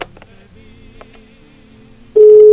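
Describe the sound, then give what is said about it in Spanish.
A telephone call connects: faint clicks and quiet line noise give way near the end to a loud, steady ringing tone that starts abruptly and holds. “Y nos esperamos a que se enlace la llamada telefónica para escuchar si responden adecuadamente.”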